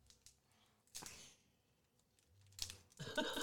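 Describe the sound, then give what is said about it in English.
Tearing and crinkling of a trading card booster pack's wrapper as someone tries to rip it open: a few sharp ripping bursts, ending in a longer crackling rustle, fairly faint overall. “He's literally trying to tear the booster pack in half.”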